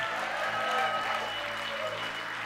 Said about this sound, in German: Können wir Gott nochmal einen Applaus geben? An all unseren Locations, come on. Einen großen Applaus für Gott.